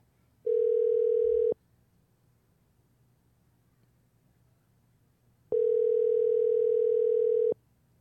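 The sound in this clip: Ringback tone of an outgoing telephone call: two steady, single-pitched electronic rings, the first about a second long and the second about two seconds, separated by a long silent gap.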